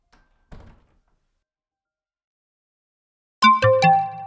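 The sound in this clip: A door being opened: a brief faint rattle, then after a long silence three loud, resonant metallic clunks in quick succession, each leaving a ringing tail.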